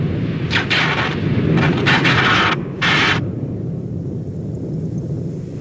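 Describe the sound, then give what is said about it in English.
Blaster turrets fire blue energy pulses from four ports, sending out several loud, harsh bursts in quick irregular succession over a steady low rumble, followed by the rumble continuing alone. “Fire! Blue pulses of energy firing from the 4 different ports in the turret fly out over the fence and into a distant mountain wall.”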